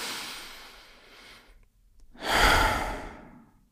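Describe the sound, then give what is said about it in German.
A deep breath taken in through the nose and let out through the mouth: a soft, airy inhale followed after a brief pause by a louder, fuller exhale, with no speech. “nimm nochmal einen tiefen Atemzug durch die Nase ein und durch den Mund aus.”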